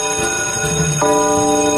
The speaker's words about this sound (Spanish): Ya tocó la campana.